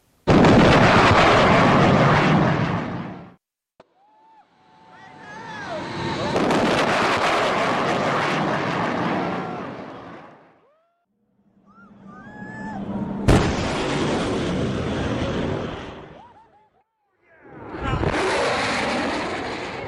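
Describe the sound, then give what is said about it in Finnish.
A sonic boom from an aircraft breaking the sound barrier: several long, deep, rumbling roars separated by quieter gaps, with a sharp crack partway through and thin whistling swoops between the bursts. “Siinä murtui äänivalli ja sen takia oikeastaan halusin tämän kuulla itsekin.”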